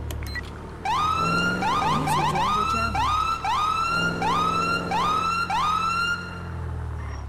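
A police car siren in a video game wails in rapid, repeating rising yelps. It kicks in abruptly after a second of low engine rumble and stays loud and steady to the end.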